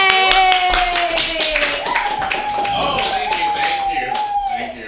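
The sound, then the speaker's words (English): An open-mic comedy audience claps for a comedian, a rapid, loud patter of hands under a held, gradually wavering vocal cheer, fading toward the end. “Clap wildly because he's been working hard for you all night and he's going to be funny.”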